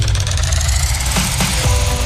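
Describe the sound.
A racing car engine roars at the 24 Hours of Le Mans circuit, a loud, dense low rumble that holds steady throughout with a few brief surges in its second half.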